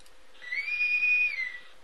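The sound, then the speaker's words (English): A whistle signals the end of the show: one steady, high, sustained tone that swells in, holds for about a second and fades, heard alone. “Well, my friends, we're out of time. That's our whistle.”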